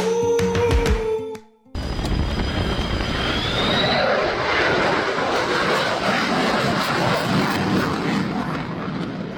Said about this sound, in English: That's a pass from an F-35 at the Blue Angels homecoming air show. Demo, of course, the F-35A variant that the Air Force flies.